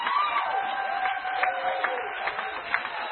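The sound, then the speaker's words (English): Applause from a comedy club audience, dense and steady clapping that fills the whole stretch, with a voice heard over it. “Great audience. Give yourselves a round.”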